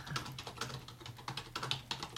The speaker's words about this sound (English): Yes, we're both typing.